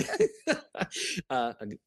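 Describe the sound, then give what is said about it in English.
Throat clearing from a person about to answer a question, a quick series of short, rough, rasping bursts at moderate loudness, with no talk over it. “Clear that throat there before you answer it.”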